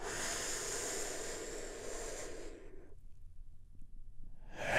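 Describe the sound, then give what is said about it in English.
A long, deep breath drawn in during a guided relaxation exercise: a steady, soft breathy hiss that fades out after a few seconds, then a fresh breath swelling again at the very end, with no talking. “just taking a big, deep healing breath. All together, here we go”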